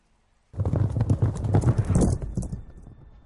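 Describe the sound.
Horse hooves clip-clop in a rapid, steady run of many beats. They begin abruptly after half a second of silence, stay loud and even, then ease off slightly at the end.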